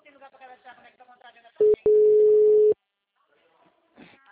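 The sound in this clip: Ringback tone of an outgoing phone call: a short beep followed by a longer steady tone, with talk before and after it.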